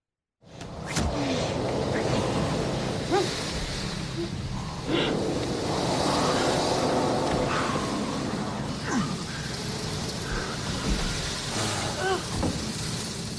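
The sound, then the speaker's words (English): Violent car wash sound effects from a film scene: a continuous, loud rushing roar of spraying water and rumbling machinery, broken by scattered thumps and squeaks throughout. “the very violent car wash happens while Vaughn is just grabbing her and they're just having this. So this is the sort of sound effects we're talking about.”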